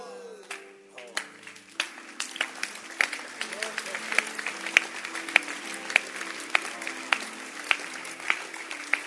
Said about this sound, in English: Can you see yourself clapping? You clap and see.